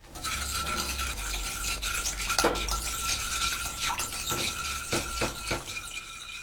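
Stirring sauce ingredients together in a pot: continuous scraping and rubbing of a utensil against the pot, with a few sharper clinks and knocks toward the end and no talk.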